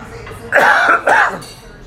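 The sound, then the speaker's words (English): Two harsh, throaty coughs come in quick succession, loud and close together, with a raspy, throat-clearing edge. “I'm very sorry about the coughing.”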